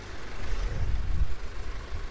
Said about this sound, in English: It's late afternoon and dozens of flatbed trucks whiz by in the thick tropical heat.